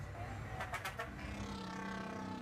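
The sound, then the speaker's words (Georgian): Loud city buses and surrounding traffic fill the street with a steady, dense engine rumble and roar that hold at an even level throughout, with no clear separate events. “ავტობუსები ძალიან ხმაურობენ.”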